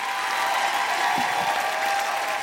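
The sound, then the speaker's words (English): Audience applause at a live show: a dense, steady wash of clapping from many hands that holds at an even, fairly loud level for the whole short stretch, with no voices above it. “Can everybody just say a huge thank you, a big round of applause for the wonderful Tiff Stevenson?”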